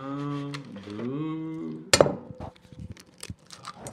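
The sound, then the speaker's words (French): Utensil clinks against a bowl as eggs are beaten with sugar: one sharp clink, then many quick, irregular taps, after a hummed, wavering tone. “Ensuite, on prend les œufs, on bat les œufs avec le sucre jusqu'à ce que cela se mélange et devienne blanc.”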